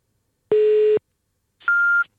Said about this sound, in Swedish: Gud vad den lät gammeldags, det där pipet.